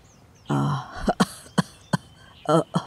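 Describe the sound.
Harsh hacking coughs, a voice imitating an old man's cough as he opens a gate: a drawn-out voiced groan, then several short, sharp bursts, loud against near silence.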